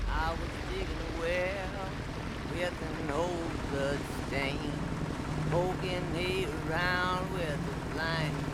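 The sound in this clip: Rambo's boat moves across the water, a low, steady engine and water drone running underneath several people talking throughout.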